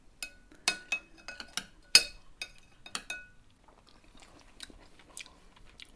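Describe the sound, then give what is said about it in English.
Cutlery clinking on dishes as people taste green pea soup garnished with mint: many quiet, sharp clinks and taps in an irregular rhythm, with soft chewing sounds, fading to lighter taps at the end. “Should we have a quick taste? Should we grab a... Let's give it a go.”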